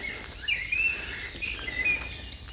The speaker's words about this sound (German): Hier im Wald ist immer noch Vogellärm. Schön, ne?